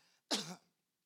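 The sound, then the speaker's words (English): A single short, harsh cough from someone with a lingering cough that keeps returning, loud and abrupt, standing alone in a quiet moment. “see, just when I think I've gotten over that cough, it comes right back.”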